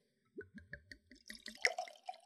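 Wine pours from a bottle into a glass in a quiet run of quick gurgling glugs that grow into a denser, continuous liquid splash.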